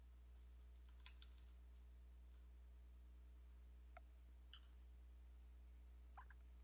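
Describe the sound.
A computer keyboard is tapped faintly, with a few sparse, light keystrokes scattered over a steady low hum.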